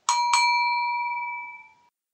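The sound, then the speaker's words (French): A small bell is struck twice in quick succession. The two bright, clear ringing tones merge and fade out together in a long, smooth decay, heard alone. “Merci clochette.”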